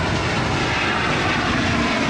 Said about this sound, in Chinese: C-919 从容地抬起头，穿越云层，翱翔在东海之滨